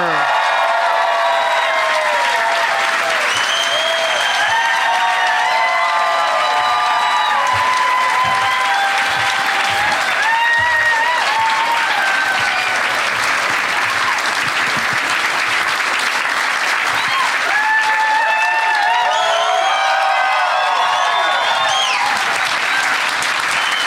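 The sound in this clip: Loud applause and cheering from a comedy show audience welcoming three stand-up comedians to the stage, a dense, sustained roar of clapping with cheers and whoops rising over it throughout.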